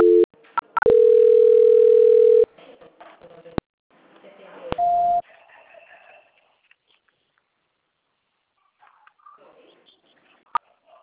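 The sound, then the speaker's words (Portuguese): Tones from a phone call being transferred to a quality-control department: a couple of brief beeps, a sustained steady tone lasting about one and a half seconds, then another short beep, with brief faint speech and quiet line noise between. “Já vou transferir a senhora para o controle de qualidade, tá? Só um minutinho, por gentileza, tá bom? Transferência.”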